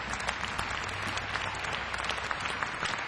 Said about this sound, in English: let's give a hand to all the people with the lights,